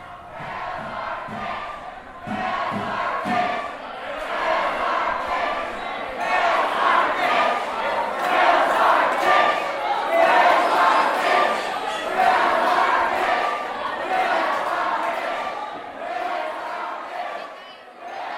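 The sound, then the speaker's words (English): A crowd chanting and cheering inside Ida Noise late at night ahead of List Release, a dense roar of many voices that swells up after a quieter, muffled opening and stays loud and continuous throughout. “I'm standing right outside of Ida Noise, and I'm about to walk in. You can already hear people chanting from here.”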